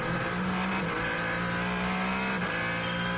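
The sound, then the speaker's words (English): A Ferrari racing car engine drones loudly and continuously during a motor race. Its steady, high whine holds throughout, with brief shifts in pitch near the start and end. “The Ferrari of Alessandro Pagridi. Quick Pagridi pushing along.”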